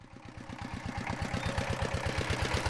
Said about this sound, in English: Now that's the motor of a brick kiln in Dhaka. That's the capital of Bangladesh.